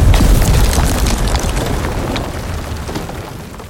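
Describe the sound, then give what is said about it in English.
A cabin explodes with a loud, deep boom that rolls into a long rumbling roar and slowly fades. “The cabin was set to blow and threw me forward.”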